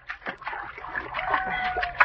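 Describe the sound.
Water splashing as someone swims, a run of irregular sloshing strokes at moderate loudness ending in a sharper splash.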